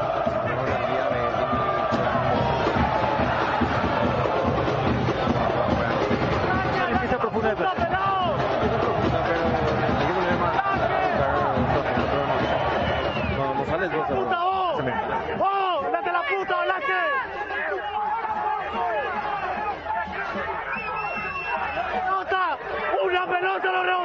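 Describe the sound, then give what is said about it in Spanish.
A stadium crowd of angry football fans of Cerro roars without pause, a dense, loud mass of many voices shouting and chanting together for the whole stretch. “Escuchemos al público.”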